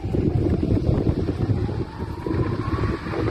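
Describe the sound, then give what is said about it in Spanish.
Strong wind blowing during wildfires in Andalusia, at Moguer in Huelva or Aznalcázar in Seville, heard as a continuous loud, low roaring rumble with gusty surges and dips. “Ahí se puede apreciar la fuerza con la que soplaba el viento en otros puntos de Andalucía, en Moguer, en Huelva y en Aznalcázar, en Sevilla.”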